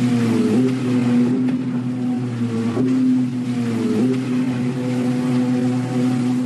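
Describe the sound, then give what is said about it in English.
A jet ski engine gives a loud, continuous low rumble near a beach. Its humming tone wavers and dips slightly in pitch a few times, going round steadily with no voices. “I've also been talking about jet skis as well. You know that sound that rumbles through the air? Maybe it drives you a little bit nuts hearing this go round and round.”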